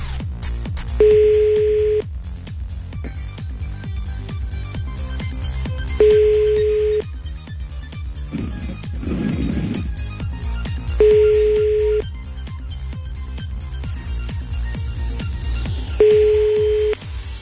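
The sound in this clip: Telephone ringback tones on a call before it reaches voicemail: four steady beeps, each about a second long, repeating at regular intervals over a continuous background hum.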